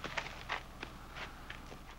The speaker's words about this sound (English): Dusty gray earth clings to their boots as they walk.